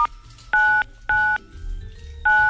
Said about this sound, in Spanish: Hágame el favor de marcar asterisco 9999.